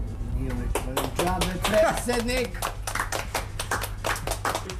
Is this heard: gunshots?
no